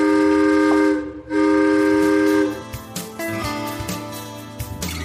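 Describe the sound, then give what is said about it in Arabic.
A children's amusement train sounds two long, steady whistle blasts separated by a brief gap, followed by rattling mechanical clatter and irregular knocks. “تمام اوكي، يلا بينا نطلع قطار الصغار.”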